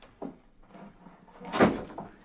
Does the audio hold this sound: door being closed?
yes